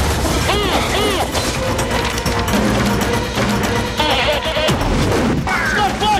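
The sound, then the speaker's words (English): Bombs exploding in a video game as a character hurls them at a SWAT team, heavy bursts mixed into dense game sound effects and tonal music-like layers throughout. “Unit 1 moves in and Danny throws some bombs at them.”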